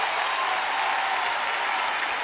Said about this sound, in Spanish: ¡Fuerte el aplauso!